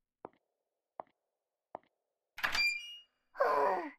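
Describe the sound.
Three sharp, single knocks sound on a door at a steady pace. Then the door finally opens with two longer, rough bursts of scraping and groaning.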